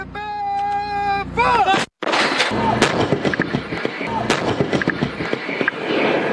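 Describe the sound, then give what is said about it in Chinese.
Several artillery guns fire in turn during a high-altitude plateau firing drill in heavy rain, with loud booming blasts and dense crackling bursts running through the last four seconds after a brief tonal opening. “随着指挥员一声令下，多门火炮依次开火，炮弹精准覆盖目标区域。”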